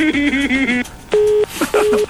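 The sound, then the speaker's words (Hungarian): A telephone line rings on a radio phone-in line: two short, steady, even tone bursts with a gap between them, following a brief voiced sound. “Már csörög is a vonal.”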